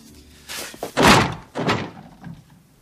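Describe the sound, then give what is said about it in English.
Heavy thuds of a stuck object being kicked hard to free it: a few loud, dull impacts spaced roughly half a second apart, the last one fainter. “Sometimes when things get stuck, the way to unstick them is just to kick them as hard as you possibly can.”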